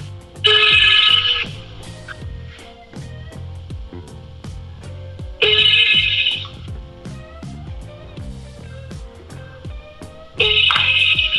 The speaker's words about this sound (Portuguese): Liga de novo, liga de novo.